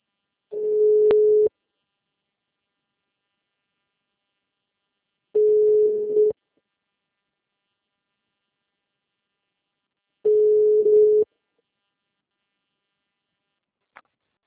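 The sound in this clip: Telephone ringing tone heard while placing a call: three steady mid-pitched tones, each about a second long and spaced roughly four seconds apart, followed by a short click at the end.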